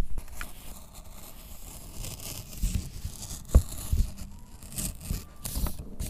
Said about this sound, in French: laisse un petit espace de papier. Et je fais le bras de ce flocon-là. Je sors un tout petit bout. Donc là, je commence à découper.